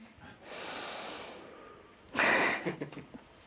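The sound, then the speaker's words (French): A person breathing: a long, soft, airy inhale, then a sharp, louder burst of exhaled breath through the nose, followed by a few fainter breathy puffs. “Je respire.”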